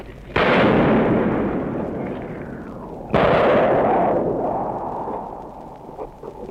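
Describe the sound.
Gunfire amid the ruins of a city during its liberation: two loud, sharp blasts a few seconds apart, each followed by a long, rolling decay of rumble.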